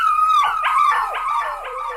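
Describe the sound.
A dog howls frantically inside a museum, a shrill, anguished run of wavering howls and yips that swoop up and down in pitch, loud and unbroken with no voices.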